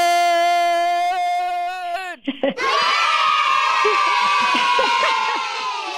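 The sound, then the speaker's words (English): A cheering-crowd sound effect from a 'yay' button: a held, bright tonal note for about two seconds, a brief break, then a loud burst of crowd cheers, screams and whoops that fades slightly at the end. “I'm hitting the yay button like against my will. I don't want to encourage.”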